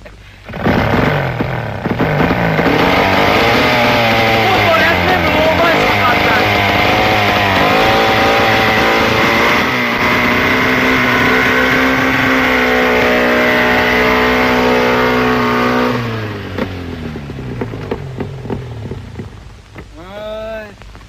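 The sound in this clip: A car engine with carburetor trouble runs loud and steady, a droning harmonic roar that holds for about sixteen seconds before dropping to a quieter, uneven sputter.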